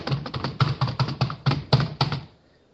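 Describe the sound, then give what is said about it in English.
Rapid typing on a computer keyboard: a dense run of clicking keystrokes in uneven bursts that stops shortly before the end. “Let me type it in right now.”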